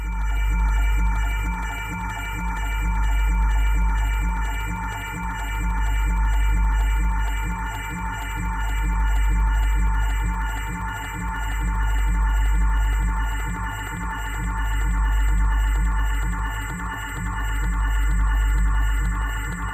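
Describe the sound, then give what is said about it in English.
Dense electronic droning from an on-air sound installation that combines audio and radio feedback, with layered sustained tones and hiss. Its loudness swells and recedes in slow, regular pulses throughout, with no voices. “All sounds you heard were recordings of an on-air sound installation that combined audio and radio feedback.”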